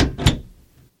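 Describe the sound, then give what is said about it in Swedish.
A door opening or closing, two quick, solid thuds in close succession, then a short fade into silence. “så börjar en dikt när jag öppnar dörren och avslutas när jag stänger dörren”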